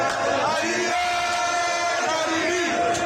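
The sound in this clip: Massed voices in a football stadium chant in praise of Reza Shah and cheer Ali Karimi, with sustained, tonal, chant-like shouting rising over a steady crowd din.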